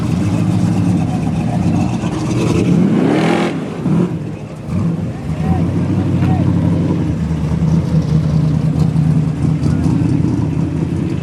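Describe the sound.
A car engine revs and pulls away at a car cruise event, a loud, throaty rumble that surges sharply for a moment, then settles into a steady, heavy drone.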